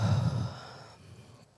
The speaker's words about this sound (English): I want us to take a collective deep breath in and out.